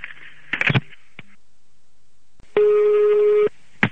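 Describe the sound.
A telephone ringback tone plays on a call to the wrong apartment. One steady, single-pitched tone of about a second comes after brief, scattered bursts of other sound, and a short click follows it.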